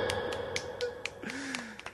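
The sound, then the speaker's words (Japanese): A clapping sound effect plays as a quiet run of evenly spaced, crisp claps in a brisk, regular rhythm. “このパチパチパチが私は個人的には好きです。”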